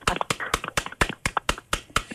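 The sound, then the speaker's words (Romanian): An audience claps together for volunteers, beating out steady rhythmic applause with sharp, evenly spaced strong claps and lighter ones in between, at a quick, regular tempo. “vreau să aplaudăm împreună în acest moment voluntarii care și-au făcut treaba extraordinar și în ultimele două luni”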